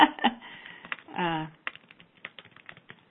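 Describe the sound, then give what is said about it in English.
Typing on a computer keyboard, with bursts of quick, irregular key clicks and a brief voiced sound partway through. “I have so much energy coming off of my hands when I work with you guys, it's hard to type.”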